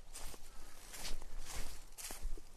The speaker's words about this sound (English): So walking along an embankment here that's approximately 20 foot high,